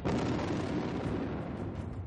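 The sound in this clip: An explosion sound effect of a body blowing apart: a dense, loud, rumbling roar that runs steadily through the whole clip without separate blasts.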